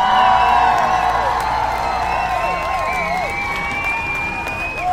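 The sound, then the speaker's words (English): An audience applauds and cheers to welcome two hosts, a dense, steady wash of clapping with whoops and rising cries above it, fading slightly toward the end. “And now, without further ado, put your hands together for the host of Justice for All, Josh Scarpello and Pierre Latour.”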